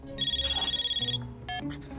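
A phone ringtone sounds beside a bed on a boat, a bright warbling trill pulsing rapidly and steadily for about a second, then breaking off into shorter electronic tones.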